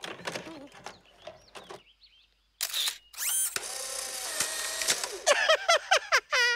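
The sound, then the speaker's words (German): An instant camera takes a photo: a sharp shutter click, then a buzzing motor whir as the print comes out. People talk before and after. “Ich habe ja hier meinen Fotoapparat. Ja, der macht sogar Fotos, die man sich sofort angucken kann.”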